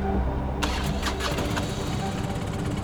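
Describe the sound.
A motorcycle engine starts, cranking and catching into a loud, rough, continuous roar.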